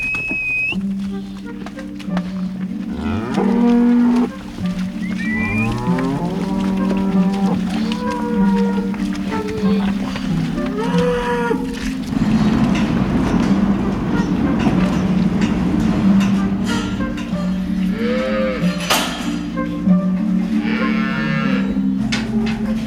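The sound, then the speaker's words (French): Cows in a barn moo and bellow impatiently while waiting for their feed. Many loud, overlapping calls of varying pitch rise and fall over a constant low rumble, with the herd calling almost without pause. “Les premières, alors les autres se disent on n'est pas contente. Donc, elles râlent.”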